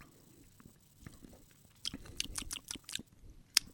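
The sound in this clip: Crunchy biting and chewing of a pumpkin-pie-flavoured snack: quiet at first, then a quick run of faint, crisp crunches in the second half, ending with one sharper crunch.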